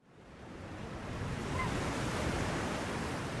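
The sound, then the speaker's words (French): Sea waves wash at the seashore in a dense, steady roar of surf that builds over the first second and then holds at an even level, with no voices. “on est au bord de la mer.”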